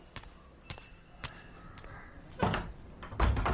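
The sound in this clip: Door-opening effect from a Bengali radio detective drama: several light clicks and taps of a latch, then two heavier thuds as the door moves, over a quiet background.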